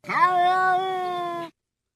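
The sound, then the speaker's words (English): A cat gives a single drawn-out meow, rising at the onset and then holding a steady, bright pitch for about a second and a half before stopping abruptly. No other sound is heard. “And then the one thing that you want your cat to say that they never do.”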